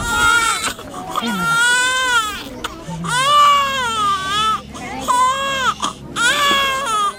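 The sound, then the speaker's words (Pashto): Children crying, among them malnourished children being treated by a doctor: several loud, sustained, wavering wails with short breaks between them. “په دغه ماشومانو کې یو داسې ډله هم ده چې ژاړي”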